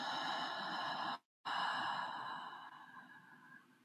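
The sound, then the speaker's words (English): Slow, soft breathing in through the nose and out through the mouth during a calm breathing exercise. Two airy, hushed breaths are separated by a brief silence, and the second trails away gently. “just closing eyes and taking three conscious breaths in through the nose and out through the mouth.”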